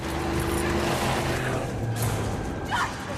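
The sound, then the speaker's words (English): A truck engine drones steadily as the vehicle is driven around a house at night, a continuous low rumble with humming harmonics that stays loud throughout. “He drives the truck around the house.”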